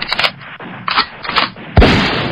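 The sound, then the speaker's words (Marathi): A single sharp, loud gunshot cracks out near the end and leaves a decaying tail, after a few softer noise bursts. “आबुताबावर name धरत गोळी चालवली.”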